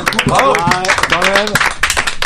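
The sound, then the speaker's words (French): A French TV studio audience claps for a guest, giving scattered hand claps and taps beneath loud, continuous speech from people on the set. “Je crois qu'on peut applaudir Tony pour le « je suis dans le coup ».”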